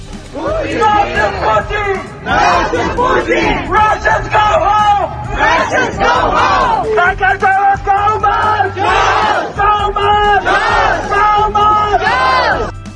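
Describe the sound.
Georgian students and their foreign supporters chant in unison at a rally calling for Georgia to join the EU. The massed voices are loud and repeat rhythmic phrases, with short breaths between them.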